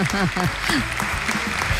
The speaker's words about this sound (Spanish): Aplauso inmerecido, ¿eh?